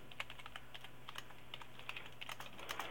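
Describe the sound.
Rapid typing on a computer keyboard: many quiet, irregular key clicks in quick succession, fairly faint and without voices.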